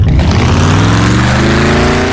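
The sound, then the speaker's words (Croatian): Powerful car engine revving on fuel: a loud, deep, continuous roar whose pitch climbs gradually throughout. “Wow, koja snaga! Čekaj, što si točio? Novo INA Classmaster gorivo. Zvuči baš moćno.”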